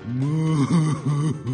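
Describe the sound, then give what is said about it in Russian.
A human voice imitates a draft horse weeping, giving several drawn-out moaning sobs with wavering, bending pitch, separated by short catches of breath. “Что плачешь, дружище? Да как же мне не плакать?”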